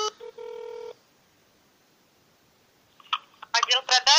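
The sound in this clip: Touch-tone telephone dialing sounds as a few electronic beeps, the last one held longer, followed by a long quiet pause, and then a voice starts talking on the line.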